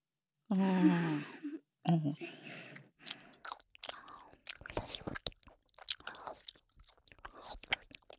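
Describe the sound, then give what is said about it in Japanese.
A girl chews gum in both ears, a long run of wet, irregular smacks and clicks. A short stretch of breathy female voice comes first. “両耳同時に女の子のガムを噛むエッチな音。”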